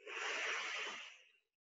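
One steady exhale through a single nostril, with the other nostril sealed off. A soft, breathy hiss lasts about a second and a half and then fades out, heard alone with no talk.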